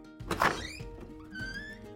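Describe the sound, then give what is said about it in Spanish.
A door opening: a short muffled thunk, then creaky, squeaking tones that rise and waver briefly. The whole sound is quiet and over within about two seconds. “A la una, a las dos y a las tres se abre la puerta.”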